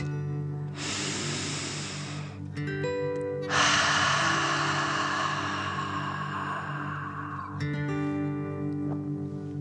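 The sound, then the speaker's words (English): A deep breath in and then out: a soft, airy inhale of under two seconds, a short pause, then a longer, fuller exhale, both over quiet, steady background music. “Fill up your chest and belly. Deep breath in and out.”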